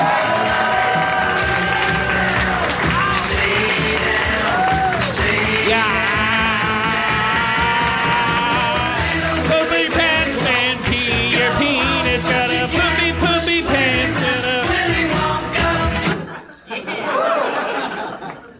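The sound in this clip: A loud song plays for a host's stage entrance at a live comedy show, mixed with crowd cheering, applause and laughter. The music cuts off near the end, and a voice starts speaking.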